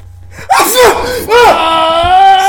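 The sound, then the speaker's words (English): A person sneezes loudly, with strained, voiced gasping sounds around the burst over steady background noise. “Oh, dude, I'm going to sneeze.”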